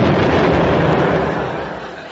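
An explosion sound effect: a dense, roaring wall of noise that holds loud and then slowly fades away, without distinct separate blasts.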